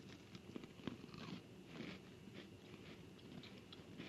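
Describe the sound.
Quiet crunching and chewing of Oreo-flavoured popping candy, soft wet mastication dotted with many tiny crackling pops, with no talking.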